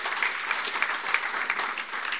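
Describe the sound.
Applause from a church audience during a sermon: continuous crisp clapping from many hands, even and moderately loud, with a few sharper claps standing out and no talking over it.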